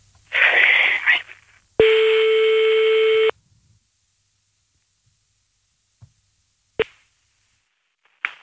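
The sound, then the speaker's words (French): An outgoing telephone call: a short noisy burst, then one long, steady ringback tone. After it comes silence broken by a few sharp clicks. “on appelle Julie”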